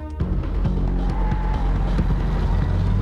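A car drives along the perimeter road of a wire-fenced prison, its engine a steady low drone with a continuous rumbling road noise, loud throughout.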